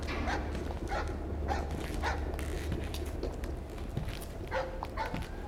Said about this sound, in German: Von einem holländischen Kahn, der am Ufer festgemacht war, kläffte ein Hund von der bissigen Sorte.